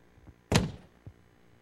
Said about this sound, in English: I got to shut this door.